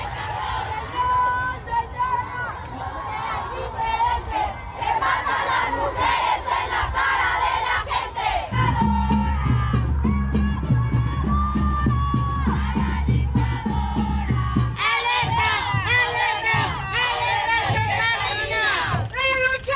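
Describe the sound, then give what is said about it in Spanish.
Thousands of women marching and chanting in Mexico on International Women's Day, a loud, continuous mass of voices shouting slogans in unison, with rhythmic swells of chanting and cheering sustained to the end. “En México, aquí en la ciudad, como en otras ciudades del país, miles de mujeres están ahorita marchando para reivindicar derechos en el Día Internacional de la Mujer. Escuchemos.”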